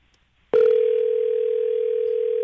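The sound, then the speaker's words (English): A telephone dial tone is heard as a call is dialled: a continuous, steady hum that begins abruptly and holds at an unchanging pitch and level for about two seconds. “So who's that you're dialing now?”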